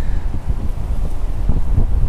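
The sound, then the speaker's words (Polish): Gusty outdoor wind buffets a microphone beside a tent, making a loud, steady low rumble with rough thumping pulses that runs through the whole two seconds. “O, wieje.”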